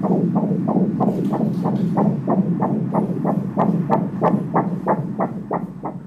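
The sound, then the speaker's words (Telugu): Fetal heartbeat on an ultrasound scan, a steady rapid whooshing pulse of about two and a half beats per second, each beat a throbbing swish over a low continuous hum, loud and unbroken, with no voices. “ఒకసారి అయితే first baby heart beat అది check చేస్తాను.”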